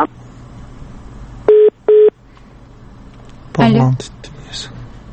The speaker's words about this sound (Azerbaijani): Əlaqə kəsildi